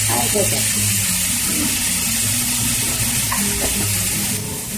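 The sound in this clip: Onion frying with salt in a pan gives a steady, bright sizzle with faint stirring scrapes. The sizzle holds a constant level throughout and eases slightly at the very end.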